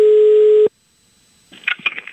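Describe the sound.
A steady electronic telephone tone holds loud and even for over half a second, then cuts off abruptly. After a short silence, a voice speaks.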